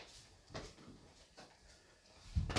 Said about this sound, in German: Kannst du die Fenster bitte aufmachen? Mhm. Achso, das machst du gerade, ja. Jetzt mach ich's.